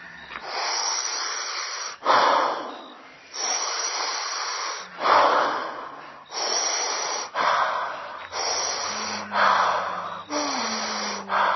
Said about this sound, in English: practice letting the exhale go quickly and completely